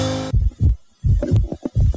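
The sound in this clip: A heartbeat, the first heartbeat during a pregnancy, comes through as muffled low thumps in an uneven repeating rhythm, preceded by a brief steady tone at the very start.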